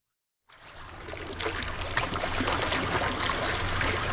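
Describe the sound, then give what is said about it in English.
Water of Lake Michigan washing and rushing in a steady, dense hiss that starts abruptly after a brief silence and then holds at an even, moderately loud level without pause. “So it's no surprise that the sound you're hearing right now is one of our most popular requests. It's the soothing sound of Lake Michigan.”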